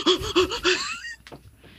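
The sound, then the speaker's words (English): Heavy, shaky breathing from a voice imitating a shaky-cam horror movie: a few sharp, voiced gasps in quick rhythm, followed by softer, ragged breaths trailing off. “Is some shaky cam, but that's when they're getting attacked. Doing it. Yeah, close-up shaky cam. And then breathe real heavy.”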